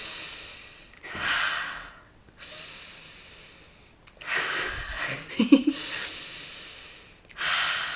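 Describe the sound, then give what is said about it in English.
Several slow, deep breaths drawn in and let out audibly as rushing, airy sounds with short pauses between them; one breath ends in a few quick, snorting puffs. “Three breaths. Three deep breaths.”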